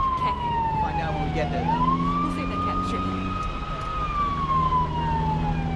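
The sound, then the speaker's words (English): A fire truck siren wails as the truck pulls out of the station. Its tone slides down, swings back up and holds high, then eases lower, all over a steady engine rumble. “The camera judders as the fire truck moves out of the station.”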